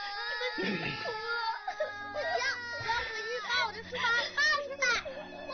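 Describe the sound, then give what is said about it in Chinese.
A group of schoolchildren cry and wail together: overlapping, high-pitched sobbing and whimpering voices that rise and break unevenly, continuing throughout with a low steady tone underneath. “同学们，别哭了啊！”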